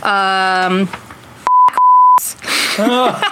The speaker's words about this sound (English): God, I can't wait to, all these beeps are going to be hilarious.